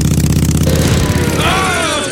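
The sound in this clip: Small engine revving hard at full throttle on a carburettor improvised from a tomato can: a loud, rough, buzzing drone with a raspy pulsing texture that holds steady throughout.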